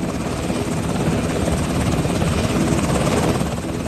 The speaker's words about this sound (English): this morning, for the first time since the ceasefire, Jordanian helicopters carrying aid were allowed into Gaza.